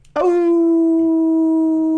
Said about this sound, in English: Now there's a bark.